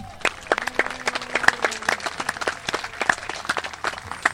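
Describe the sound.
An audience applauds to welcome a program manager for traditional blues at a concert event, with sparse, uneven claps that stay fairly faint and never build into a dense ovation.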